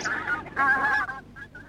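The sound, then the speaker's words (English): Geese honking: a few nasal honks, one drawn out and loudest, followed by two short, fainter calls, with no talking. “Ducks and geese ate all their food and chased them away.”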